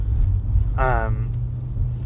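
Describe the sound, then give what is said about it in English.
Steady low engine and road rumble from inside a moving car runs throughout, with a brief voiced sound rising over it midway. “We are just driving.”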